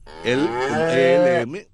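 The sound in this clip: A cow moos in a single long, loud, steady call lasting over a second, rich and harmonic, ending with a brief drop before it fades out.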